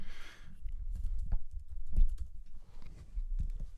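Rapid, irregular clicking of keys on a computer keyboard as an email is typed, many fairly faint taps running throughout with no voices.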